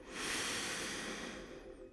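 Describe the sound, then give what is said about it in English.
A single long, deep breath taken while sitting comfortably during a meditation exercise: a steady, airy rush that holds for about two seconds, heard alone with no talk. “Take a deep breath.”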